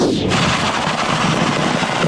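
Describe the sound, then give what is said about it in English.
Dozens of fireworks rockets go off at a burning fireworks stand in Oklahoma, a loud, dense, unbroken barrage of rapid bangs, pops and crackles with no pauses and no voices. “Check out this colorful and accidental fireworks show. It started when a fireworks stand in Oklahoma caught fire, setting off dozens of rockets.”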